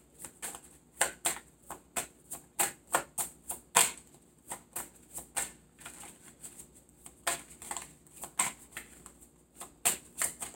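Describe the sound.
Tarot cards are shuffled and drawn during a reading, producing many crisp snaps and riffles in a loose, uneven rhythm that repeat throughout, with no talk over them.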